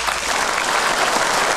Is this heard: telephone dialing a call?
no